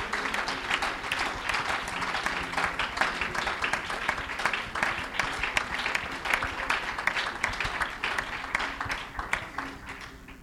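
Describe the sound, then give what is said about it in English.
A church audience claps its hands to the Lord during a service, many hands producing loud, dense, sustained applause with a slightly uneven, rippling texture for about ten seconds. “Would you clap your hands to the Lord in this place?”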